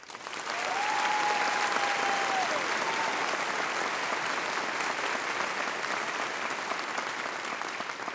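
Warm audience applause welcoming a performer, Rodriguez Jr., who brings original holiday music: steady, loud clapping that holds evenly for about eight seconds with no pause.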